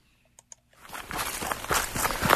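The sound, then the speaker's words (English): Footsteps tread up a wide, gently sloping mountain trail that is almost like a road, a steady, rhythmic scuffing that starts after a couple of faint clicks and grows slightly louder. “We just left the Paul Smith's Vic, and we're climbing this big, wide, basically a road almost feels like. It's very gentle.”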